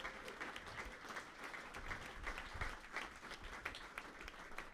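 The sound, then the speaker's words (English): An audience applauds a group on stage with steady, dense clapping that keeps an even level for the whole stretch, with no voices. “Give it up for this entire group up here.”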